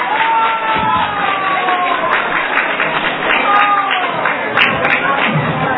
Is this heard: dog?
no